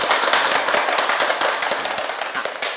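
Applause from students welcoming a guest professor to a classical poetry recitation session: dense, steady clapping from many hands, loud throughout and tapering slightly toward the end.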